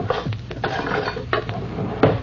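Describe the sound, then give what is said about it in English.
A spoon is taken from a kitchen drawer: metal cutlery rattles and clinks in a few sharp, uneven clicks and scrapes, fairly quiet, with no voices. “Hand me that other spoon from the drawer.”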